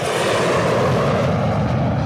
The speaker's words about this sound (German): Ein kleines Mädchen staunt über die startenden und landenden Flugzeuge.